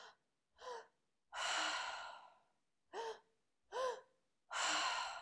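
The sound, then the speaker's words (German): Breathwork breathing with two short, sharp inhales followed by one long, rushing exhale, the pattern repeated twice. The gasping inhales carry a slight voiced tone, and the exhales are louder and longer. “Manchmal atmet man in zwei Schritte ein, manchmal in einem Atemzug ein, das, je nachdem, und dann in einem Atemzug wieder aus. Es tönt so ein so.”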